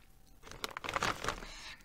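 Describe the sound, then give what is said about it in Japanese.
Someone chews a thick, well-salted potato slice, making a brief, faint burst of crisp crunching and crackling that lasts about a second. “あちょっと一つ食べてみますね。うん。うん美味しいちょっと分厚めですね。”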